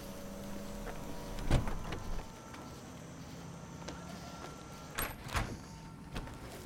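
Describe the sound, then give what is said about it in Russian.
A car trunk being closed, with one dull thump and a rattle early on, then a couple of sharper mechanical clicks later, over a low steady hum. “Она достает сумки, закрывает багажник и поднимается по крыльцу.”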